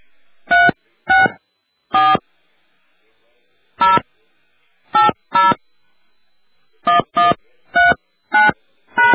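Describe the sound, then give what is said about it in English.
Loud telephone keypad tones entering a PIN followed by the pound sign: about a dozen short, bright tone bursts in irregular groups with gaps between them, and no talking. “Please enter your personal ID number, followed by the pound sign.”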